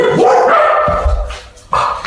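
A dog barks loudly, with a couple of sharp, yelping barks separated by a short pause and no talk over them.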